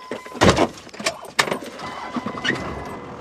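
Car driving down a bumpy two-track road on a grassy Wyoming ranch: jolting thumps, rattles and jangling over a low engine rumble, with two sharper knocks standing out.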